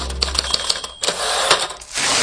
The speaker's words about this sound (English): I can't seem to type these leases anymore.